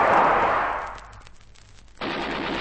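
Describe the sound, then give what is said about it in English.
Machine-gun fire aimed at a man on the run: loud, dense burst of firing that fades over about a second, then a fresh burst cuts in abruptly and holds steady. “They've opened fire on him. Shoot quickly.”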